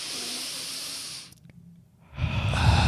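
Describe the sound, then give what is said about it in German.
A deep breath drawn in through the nose comes as a steady airy hiss for about a second. A brief quiet pause follows, then a louder, fuller breathy rush. “wenn einem übel ist, musst du halt ganz tief durch die Nase einatmen und ungefähr so.”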